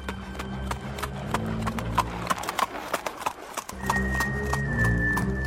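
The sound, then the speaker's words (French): Horse hooves clip-clop on a short causeway leading to a house. Many sharp, regular hoofbeats fall at a walking pace, with a brief lull partway through before the steady rhythm resumes. “je suivis à cheval une courte chaussée qui me menait à la maison”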